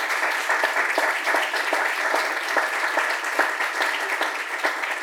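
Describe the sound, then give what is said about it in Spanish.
An audience applauds panelists at a panel discussion on a trade agreement, with dense, steady clapping that holds at an even loudness throughout and no voices. “Démosle un aplauso, por favor, a nuestros panelistas.”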